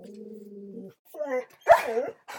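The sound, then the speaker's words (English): A dog whimpers with a steady, thin whine, then gives a few short, louder barking sounds. “I think the dog just wanted to say goodbye.”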